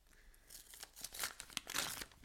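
Paper tearing and crinkling as a greeting card envelope is opened, in several short bursts of ripping that grow a little louder toward the end, faint and alone.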